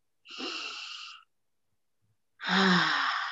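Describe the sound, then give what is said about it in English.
Deep breathing during a guided relaxation exercise: two long, airy breaths, an inhale and an exhale, separated by a silent pause of about a second. “I ask you to close your eyes and let's just breathe for a second.”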